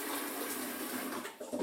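Warm water running steadily from a tap while glasses are rinsed, a continuous broad hissing splash that stays level and dips briefly near the end.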